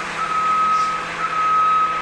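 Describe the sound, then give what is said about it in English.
Bus warning beeps: two long, steady, high electronic tones, each with a brief blip just before it, sound clearly over a low engine rumble. “all that beeping. Okay. And, geez, are you done now, beeping?”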